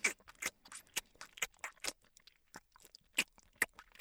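Noisy chewing while eating eggs: many short, crisp, irregular smacking and crunching bursts that come quickly one after another.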